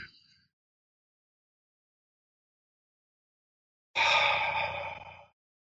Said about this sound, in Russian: глубокий вдох носом, полной грудью через живот. И выдыхаем мягко, безусильно, легко и просто.